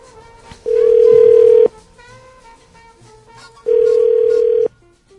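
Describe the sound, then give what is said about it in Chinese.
Telephone dialing tones as a call is placed: two loud, steady electronic tones about one second each, separated by a gap with faint background noise. “我们可以听到一点点播电话的声音吗？”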